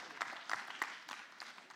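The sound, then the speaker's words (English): A church audience clapping during a service, a fairly soft patter of hands with several sharper, evenly spaced claps standing out in a steady rhythm. “You could go ahead. You could clap. You could do something so you're alive tonight.”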